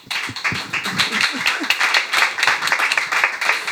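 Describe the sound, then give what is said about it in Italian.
A small audience applauds at a cabaret event, a steady mass of overlapping handclaps at moderate loudness that continues throughout, with a few brief voices underneath. “applauso”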